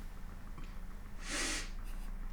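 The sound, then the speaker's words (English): A sharp, hissy inhale taken close to someone's neck, heard as one short breathy burst over a steady low background rumble, with a fainter breath following just after. “Now he's about to inhale very close.”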